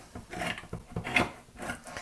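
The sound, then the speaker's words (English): A manual, handled can opener cuts open a can lid with faint, rough grinding and ratcheting clicks in an uneven series as the handle is turned. “You insert the blade on top of the lid and squeeze down. Turn the other handle, the smaller handle, and”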